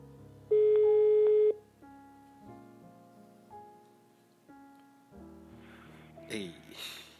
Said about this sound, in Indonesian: Kita langsung call aja ya.